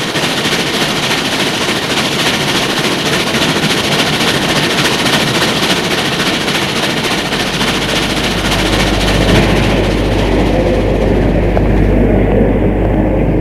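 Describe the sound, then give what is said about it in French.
A train arriving at a station in Paris gives a steady, loud rumble with fast rhythmic clatter throughout, and a deep low drone swells in partway through. “ils arrivent à la gare de Lyon à Paris.”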